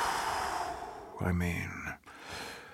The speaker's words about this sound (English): Let's keep cool. Deep inhale through the nose. Let it out through the ham hole.